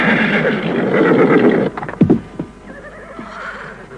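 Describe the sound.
A horse neighs in a loud, rough, drawn-out whinny. It is followed by a few heavy hoof thumps that fade into quieter sound.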